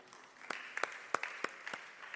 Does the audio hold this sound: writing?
no